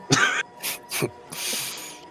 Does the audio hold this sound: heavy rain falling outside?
no